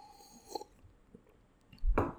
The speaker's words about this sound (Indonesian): ngobrolin pikiran peneliti sambil menyeruput secangkir kopi.